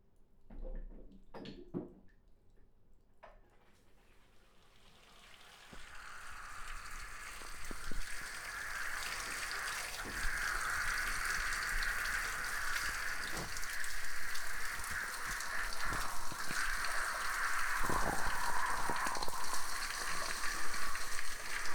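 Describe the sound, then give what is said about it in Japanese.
Water rinsing shampoo out of hair during a hair wash: a steady, fairly loud hiss of running, splashing water that builds after a few faint taps and then continues without a break. “はい、それではシャンプー洗い流していきます。”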